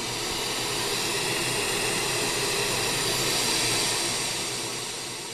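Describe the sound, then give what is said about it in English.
An engraving machine runs while making nameplates, giving off a steady, loud whirring hiss that holds level throughout and tapers slightly at the end, with no talking. “all of our customers have the opportunity to personalize those with an engraved nameplate right here. We make the nameplates, we send it out to our dealers, and just another added touch that Walsh offers to our customers. And so this is the machine that does it.”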